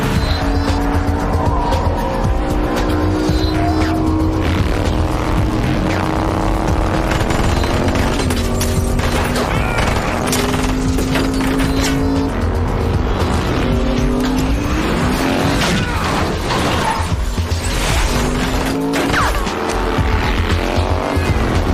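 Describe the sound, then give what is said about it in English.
A Dodge car's engine roars and its tires squeal as it races past a semi truck under nitro boost. The loud, continuous engine tone wavers up and down throughout, with no voices. “Dodge passes semi, chases bikers. Nitro boost.”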